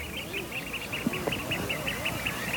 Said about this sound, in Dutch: Het geluid van de wadden, hè? Schoolexters.